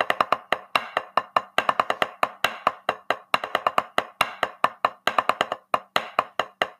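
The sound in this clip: A drum sticking pattern of alternating right and left strokes played slowly: many sharp, crisp hits in uneven groupings, some strokes accented louder than others, steady and unaccompanied.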